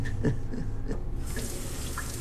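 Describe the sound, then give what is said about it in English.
Water runs from a tap into a basin as a flannel is held under the stream and soaked through, giving a steady splashing hiss with small irregular splatters, heard alone. “He turns a tap on and holds a flannel under the running water, soaking it through.”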